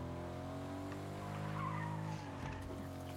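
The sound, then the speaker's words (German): Tires skid and squeal as a Mercedes G-Class is driven in a video game, a loud, steady engine drone running beneath a wavering screech that cuts off sharply after about two seconds. “ich fühle mich gerade wie so ein äh, Großverdiener wenn ich so eine G-Klasse hier fahre oder was das auch ist”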